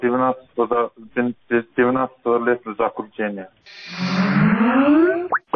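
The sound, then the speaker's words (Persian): A startup sound from the Skype computer calling program, a brief bright chime that sweeps upward in pitch. It follows a stretch of a voice talking. “این صدای باز شدنی برنامه کمپیوتری سکایپ است که به هر شخص امکان میدهد به پول با دیگران در تماس تلفنی شود.”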